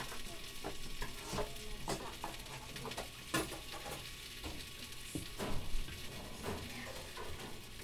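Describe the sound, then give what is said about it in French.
Food fries in a pan with coriander and sliced shallot, a steady faint sizzle broken by many irregular scraping and clattering stirring strokes, with no talking. “Et là, tous les ingrédients sont prêts. Je pense que je vais cuisiner maintenant.”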